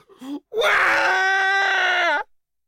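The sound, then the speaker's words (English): A narrator's voice imitates a spoilt child wailing: a brief vocal sound, then one long, loud, high-pitched sustained wail that cuts off abruptly. “The spoilt brat immediately started wailing.”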